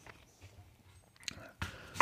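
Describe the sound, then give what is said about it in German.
A knife cuts a small piece of meat during a tasting, with a few sharp chopping strokes that grow louder toward the end. “Gib mir nochmal ein Stickerl Fleisch. ich, schneide dann nochmal so ein kleines Stickerl runter.”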